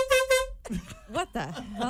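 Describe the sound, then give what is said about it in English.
A short air horn blast, a bright, buzzy sustained tone lasting about half a second, followed by people talking and exclaiming. “doesn't know about the air horn”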